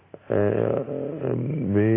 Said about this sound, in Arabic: هنا ايضا كلبة اهو، شوفوا حضراتكم